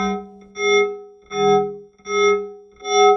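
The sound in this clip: A cello as processed by a cochlear implant: buzzy, harsh, distorted-sounding sustained tones in a few swelling bowed notes, the first quieter, with no talk.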